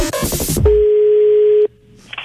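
A telephone being dialed: one steady electronic tone holds at a single mid pitch for about a second, then cuts off abruptly. It follows a short, loud burst of mixed sound, and faint noise remains afterward.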